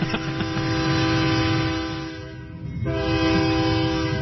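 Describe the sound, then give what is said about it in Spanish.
A horn honking in one long, sustained blast with a steady, buzzy harmonic tone, loud throughout the four seconds, briefly dipping in level partway through before swelling back to full strength. “Pítele otra vez, que le toque el pito otra vez.”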